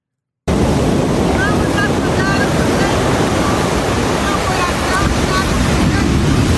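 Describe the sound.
Steady roar of sea surf at the shore, with wind buffeting the microphone, from a phone video filmed while coming out of the sea; a loud, continuous wash with no clear breaks.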